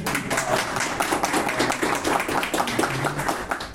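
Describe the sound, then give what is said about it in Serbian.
Applause for the host at a People Hub gathering: a dense, brisk patter of many hands clapping at a fairly even level throughout. “može aplauz za domaćina”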